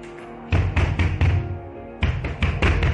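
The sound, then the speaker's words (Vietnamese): Heavy pounding on a door: two rapid groups of loud thuds separated by a short pause, over a quiet steady background tone. “tiếng đập cửa, rồi tiếng điện thoại của cậu lẫn với Trường đều thay phiên nhau reo.”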